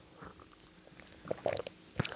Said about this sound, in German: ich trinke noch schnell